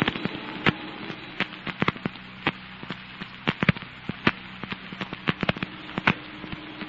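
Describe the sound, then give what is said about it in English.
Crackling and popping of a large tenement house fire burning fiercely: many sharp, irregular snaps and pops over a steady rushing hiss, with no voices. “That big tenement house at the end of the block. Why, they'll never be able to save that. It's going up like tinder.”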